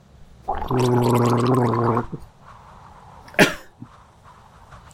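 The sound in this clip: A voice gargles in imitation of an invented evil language called Gargletongue. It makes one loud, bubbling gargle lasting about a second and a half, and a brief sharp burst follows after a quiet pause.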